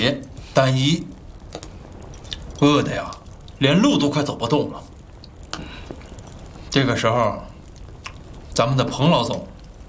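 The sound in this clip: Chewing on a large flatbread, with soft, moist bites and mastication sounds in a few separate bursts, interleaved with people talking.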